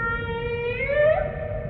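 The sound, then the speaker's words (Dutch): A humpback whale calls in a long tonal, harmonic moan whose pitch bends gently upward midway, then levels off, heard alone without voices. “De bultrug, nou, dat is echt een prachtige, majestueuze walvis.”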